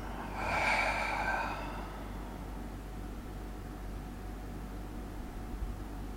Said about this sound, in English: A deep, audible inhale. And again, an audible exhale, letting it out.